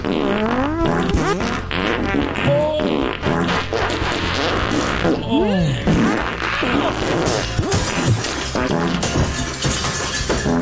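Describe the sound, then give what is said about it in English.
Fart sounds play in dense, overlapping succession as a montage, a continuous stream of loud blats with squeaky rising and falling tones and no pauses. “And now here's a montage of other fun farts.”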